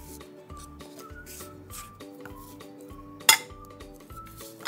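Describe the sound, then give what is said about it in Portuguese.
A spoon stirs cake batter in a bowl, giving soft repeated scraping and light clinks of metal against the dish, with one sharper clink partway through. “Aí agora você vai mexer direitinho.”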